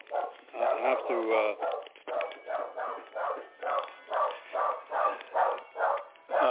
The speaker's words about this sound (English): Could you go to somebody else and I'll come back? My dog is okay. Barking.